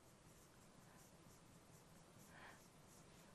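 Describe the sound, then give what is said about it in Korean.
Faint, steady scratching of a pen on paper as an example sentence about a man drinking hot soup is written out by hand, a soft continuous rasp with no other sounds. “그럼 이렇게 한번 써볼게요.”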